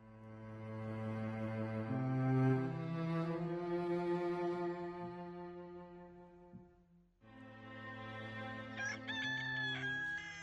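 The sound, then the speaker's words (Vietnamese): A rooster crows at the edge of a village, long drawn-out harmonic calls held steadily and repeated after a short pause, fairly quiet and heard alone. “Tiếng gà gáy vang vọng từ phía đầu thôn thượng vọng lại.”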